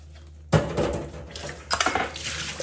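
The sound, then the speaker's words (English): Glasses are washed with water. A sudden splash and clink starts things off, then quick clattering knocks mix with a rushing rinse. The sound is fairly loud, with no talking. “And this can be used to wash your glasses.”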